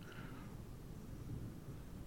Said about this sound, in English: That's the sound of thunder, but I don't know if you can hear it.